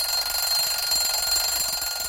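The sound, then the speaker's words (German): An old alarm clock rattles and rings in one continuous, loud, bright metallic clatter that holds steady without pause, with no talking. “Cheddern tut einen alten Wecker.”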